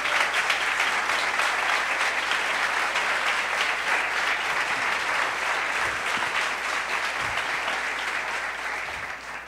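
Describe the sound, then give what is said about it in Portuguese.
A church audience applauding during a service, with steady, dense clapping that stays loud and even throughout and fades only slightly at the end. “Se você pode, aplaude ao Senhor.”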